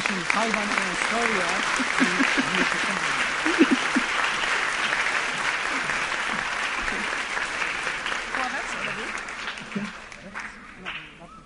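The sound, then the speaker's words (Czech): Warm audience applause welcoming a female guest speaker: a long, dense, steady wash of clapping that stays loud for most of its length, with a few voices mixed in, and thins out toward the end. “takže ji můžeme ještě srdečně přivítat potleskem”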